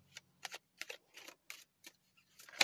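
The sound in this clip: Soft, crisp snaps and rustles as tarot cards are pulled from a deck, a quiet run of separate short card sounds with gaps between them, the last one a little louder.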